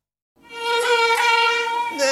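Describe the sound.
Mosquito buzzing in a steady, high, nasal whine that begins after a short silence and holds for nearly two seconds, its tone shifting slightly near the end.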